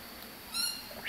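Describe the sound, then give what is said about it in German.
Birds call inside a zoo's tropical jungle tent at breakfast feeding time, brief faint squawking calls over a steady hiss, one bright call in the middle and another short burst at the end. “Ich verteile jetzt das Frühstück für die ganzen Vögel hier im Dschungelzelt”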